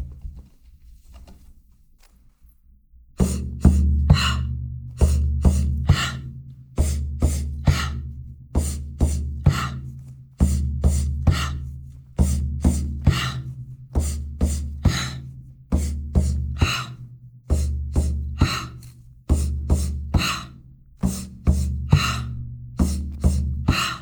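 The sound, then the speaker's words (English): Shamanic breath work, with breaths drawn in through the nose and pushed out through the mouth over steady drumbeats. After a few quiet seconds, the rhythmic breathing and beats repeat many times. “It's going to be inhale, inhale through the nostrils and exhale through the mouth to the sound of the drum.”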